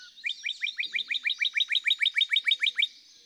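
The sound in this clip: A male songbird sings to a female at the nest: a rapid, high, even trill of many identical quick notes, bright and clear against a quiet background.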